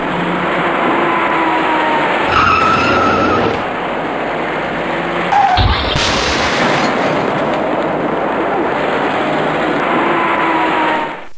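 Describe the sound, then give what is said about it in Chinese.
A white car fails to slow and rear-ends a silver station wagon on an urban ring-road main carriageway at night, heard as a steady loud traffic roar with a heavy impact crash midway through. “前方行驶的车辆已经减慢了车速，可是从后面开上来的一辆白色小客还在快速向前行驶。由于措施不及，他严重追撞了前方的一辆银色旅行车”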